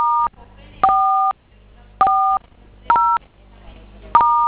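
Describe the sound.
Telephone keypad tones as star codes are keyed in: five separate two-tone beeps, each short and loud, with quiet gaps between them.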